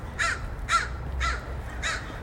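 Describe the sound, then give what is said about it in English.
Crow cawing: four harsh, raspy caws at an even pace over a low rumbling background. “My crow friend is very excited about our conversation.”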